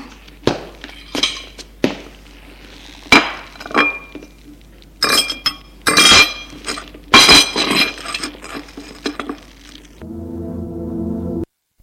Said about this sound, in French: À midi moins de quart, il met le couvert pour déjeuner.